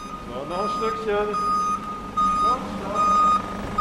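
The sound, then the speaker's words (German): Reversing beeps from a silver five-tonne mobile measuring-lab truck backing into an institute workshop hall: a steady series of repeated high electronic beeps over a low engine rumble, with a man speaking throughout. “setzt mit dem Mobilab rückwärts in eine Werkhalle des Instituts für Troposphärenforschung.”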